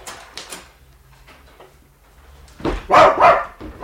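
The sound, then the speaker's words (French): A dog barks in short, sharp bursts: a couple of quick barks, a pause with faint rustling, then a louder cluster of barks near the end. “Oh, le beau chien, tu en as une bonne figure de brave toutou.”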